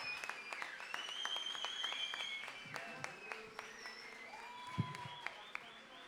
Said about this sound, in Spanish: Rasta man. Fuerte el aplauso. Muchas gracias.